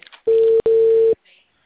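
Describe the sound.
Ringback tone of an outgoing WhatsApp call, two steady mid-pitched beeps in quick succession, with brief voice sounds just before and after.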